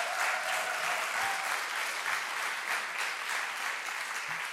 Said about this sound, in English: Can you please give them a hand as they come up?